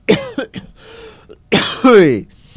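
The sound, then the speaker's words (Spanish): Coughing from a person pausing mid-conversation: a few rough, loud bursts with throat clearing, spaced unevenly and heard without other talk. “Perdona que voy a toser.”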